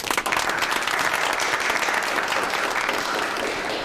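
Audience applause welcoming colleagues from a publicity department: a dense, loud, continuous wash of many hands clapping, steady from start to finish.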